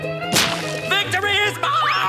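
Cartoon snowball throw and hit: a sharp whooshing swipe lands early over a bright, sustained musical backing, followed by a few softer swishes and a rising whistle-like tone near the end.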